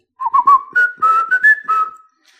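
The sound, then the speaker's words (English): The familiar whistled tune of the Old Spice brand: a short melody of several clear notes, bright and steady, whistled alone. “the Old Spice brand that has that familiar whistle.”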